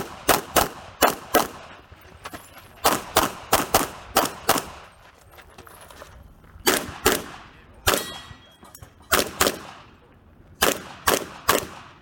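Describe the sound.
Gunfire from a firearms training shooting video, many loud sharp shots fired in quick clusters of two to four with short pauses between bursts, each crack trailing off briefly.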